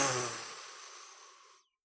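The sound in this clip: A deep breath drawn before speaking: a single airy rush that fades over about a second and a half, then stops abruptly into silence.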